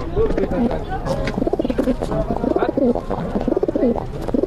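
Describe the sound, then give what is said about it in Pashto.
Pigeons cooing inside a pigeon loft: many low, throaty coos repeat in overlapping rhythmic bursts, moderately loud and continuous across the whole stretch. “دا کوتر چې وسته د غمبر وهي کنه؟ او وهي ولا نه وهي.”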